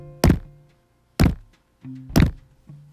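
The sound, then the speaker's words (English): Knocking on a door as a signature knock: three loud, heavy thuds, evenly spaced about a second apart, with a low, faint tonal hum underneath. “She did her signature knock so that he would know that she arrived. Quick knocks. A 2-second pause and then”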